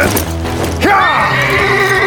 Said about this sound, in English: Then he vaulted up onto the horse.